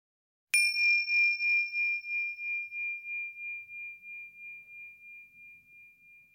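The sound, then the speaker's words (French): A small bell struck once to open a meditation exercise: one clear, high ringing tone that sustains and fades slowly over several seconds with a gentle wavering pulse, alone in silence. “Et quand tu entends la clochette, nous commençons l'exercice.”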